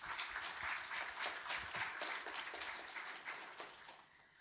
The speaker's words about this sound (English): Ladies and gentlemen, please make her welcome.